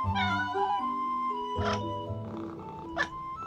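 A small white cat meows a few short times over a sustained musical background in an audio drama scene.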